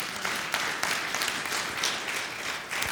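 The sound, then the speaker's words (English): Applause from a church audience after a budget report, a steady, moderately loud patter of many hands clapping with a few sharper claps standing out, with no talk over it. “You can applause for that.”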